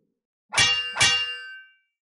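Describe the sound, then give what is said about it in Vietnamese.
Two bright metallic clangs of metal weapons clashing, struck about half a second apart. Each is loud, with a shimmering ring that fades out over roughly half a second. “Thanh âm như thần binh lợi khí va chạm vào nhau”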